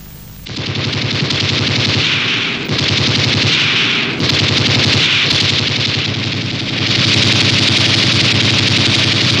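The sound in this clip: Gunfire in long, loud bursts of rapid automatic fire, a dense rattling stream of shots broken only by a few brief gaps, with no talk heard over it.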